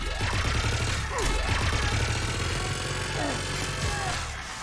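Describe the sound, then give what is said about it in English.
Shotgun blasts and gunfire in a video game battle, a dense, loud, continuous crackle of shots and mechanical clatter that stays sustained throughout. “Great place to fight in. Lots to destroy. Wrex is shooting people with his shotgun. Approaching your position, Commander. Just following the gunfire.”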